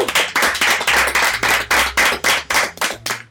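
Applause for newly elected school representatives: many sharp, evenly spaced claps in a steady quick rhythm, loud and continuous across the few seconds, with no talking.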